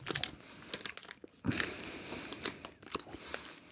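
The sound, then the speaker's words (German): Gummy bears being eaten: quiet, wet chewing and biting sounds come in many short, irregular bursts, mixed with light crinkling, with no talking. “Ich habe lange keine Gummibärchen mehr gegessen.”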